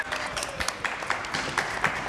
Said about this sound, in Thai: ปรบมือให้น้องทีเจหน่อยนะครับ